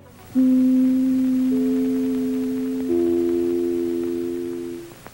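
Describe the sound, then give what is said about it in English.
The three-note NBC chimes used as a radio station identification: three sustained, bell-like tones enter one after another. They overlap and ring on together before fading out. “For being only three tiny notes, the NBC chimes have had a colossal impact on media and culture for nearly 90 years. It was back in the late 1920s when NBC started using this for the first time to identify itself on the radio.”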